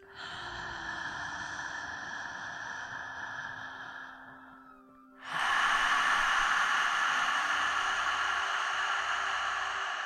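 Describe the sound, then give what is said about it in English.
Deep breathing through an open mouth with the tongue hanging out: a long, steady airy rush, a brief dip, then a louder sustained breath. “And again, inhale.”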